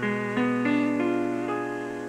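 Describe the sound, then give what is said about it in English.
The notes of a chord arrive one by one as a broken chord, with a few separate attacks stacking on top of each other into a sustained, slowly fading harmony. “When a chord is broken up or played one note at a time, it is called a broken chord.”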